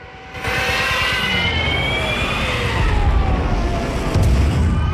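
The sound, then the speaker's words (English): Three Stuka dive bombers screech low overhead, a loud sustained roar carrying high whining tones that slide downward in pitch, the din swelling further toward the end. “They crouch in terror at the return of the three Stukas diving out of the milky white sky. Commander Bolton starts to run as they screech low overhead.”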